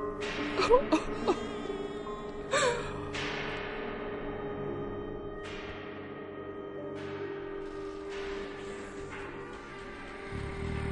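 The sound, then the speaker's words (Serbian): A child cries in whimpering, wailing sobs, with sharp louder bursts early on and again midway, then softer drawn-out moaning that continues to the end. “Ne daju mi da ga vidim. Ovo dete plače.”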